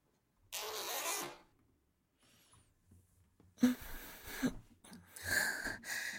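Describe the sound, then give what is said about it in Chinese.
Zipper sliding down and stockings rustling, heard as a few quiet, rasping bursts of friction noise separated by near-silent pauses. “这是拉链滑下的声音，还有丝袜那种沙沙的声音，好听吗？”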